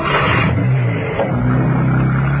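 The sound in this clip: A car engine runs on a narrow, twisty road during a chase. It holds a steady low rumble with mild swells in revving, alone and without talk.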